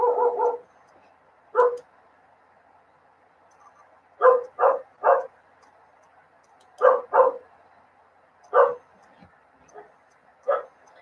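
A dog barks in sharp, loud bursts, singly and in quick pairs or triplets, with quiet gaps between them; one bark near the end is fainter than the rest.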